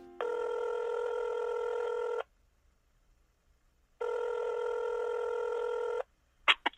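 A telephone ringback tone sounds while someone places a call. Two long, steady, buzzing tones of about two seconds each are split by a two-second silence, then a few brief clicks follow at the very end.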